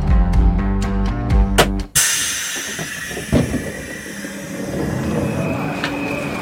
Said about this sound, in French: Ici, on est où, là ? On est à la gare de Nantes.